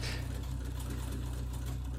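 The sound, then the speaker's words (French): An old-fashioned hand-cranked sewing machine runs steadily with a loud, low mechanical whir and a fast, even clatter throughout. No voices are heard. “c'est une machine à l'ancienne c'est le genre de machine où il faut tourner la manivelle. elle la tourne encore et encore”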